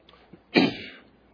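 A single throat clearing from someone with a sudden frog in the throat: one short, rough, harsh burst heard alone, with faint small sounds before and after.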